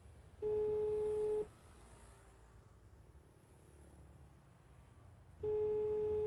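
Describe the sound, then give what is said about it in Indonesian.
A telephone ringback tone sounds as a call is placed again: two long, steady mid-pitched tones about four seconds apart, the second cut off at the end, with a low background hum between them. “Coba mak telepon lagi lah Aris kok.”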